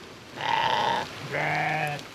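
Two drawn-out bleats from a Pomeranian sheep on a wet meadow, each lasting well under a second and separated by a short gap, clear and fairly loud over a faint steady hiss.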